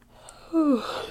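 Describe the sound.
A single yawn, voiced and drawn out for about half a second, its low tone sliding downward in pitch before trailing off into breath, faint and alone.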